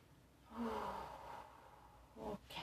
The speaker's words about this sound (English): to that I'm going to include some stretching that I'm doing right now, some deep breathing.